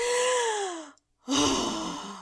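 A human gasp: a drawn-out voiced intake falling steadily in pitch, then after a brief silence a second, shorter breathy sound.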